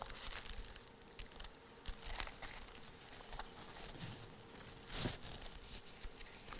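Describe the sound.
Bible pages are turned to 2 Corinthians 5 during a sermon, giving soft, continuous rustling and crinkling paper with a few brief, louder flips.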